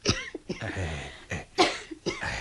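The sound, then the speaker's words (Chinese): A few harsh, sharp coughs from an itchy throat, brought on by phlegm after eating a sweet soup. The coughs come in separate bursts with breathy pauses between them. “喉咙痕起上嚟，咪咳两声咯”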